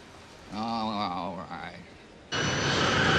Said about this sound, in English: A plane takes to the sky.